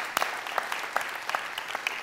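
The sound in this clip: A church audience applauds in welcome, a fairly soft, steady patter of many hands clapping with a few sharper claps standing out, and no voices over it.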